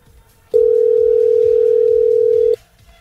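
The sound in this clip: A telephone dial tone while calling someone: one steady, unbroken mid-pitched tone lasting about two seconds, starting and stopping abruptly over faint low background noise.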